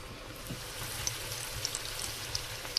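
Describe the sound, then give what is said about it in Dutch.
Food shallow-frying in oil in a pan, a steady bright sizzling hiss broken by a handful of sharp little pops and crackles. “Dat betekent dat hij echt... het is iets tussen frituren en bakken in. Ja. Kijk, het zwemt echt in de olie even. Dat is goed.”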